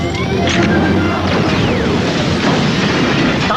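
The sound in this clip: A grenade explosion erupts as a loud, dense wall of crashing, smashing noise that stays at full strength for the whole few seconds, with no pause or fade.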